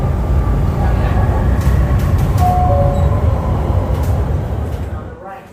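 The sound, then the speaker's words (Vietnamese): A train arriving at a station gives a loud, steady rumble with thin high squeals above it, holding level before easing off near the end. “Tàu đến rồi anh ơi, lên đường nè.”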